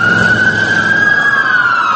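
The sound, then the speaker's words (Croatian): Ambulance sirens wail in a Baghdad street on the morning after a series of bomb blasts. The sustained high tone is loud and holds steady before dipping slightly at the end, over a low rumble. “Jutro u Bagdadu obilježavaju sirene kola hitne pomoći.”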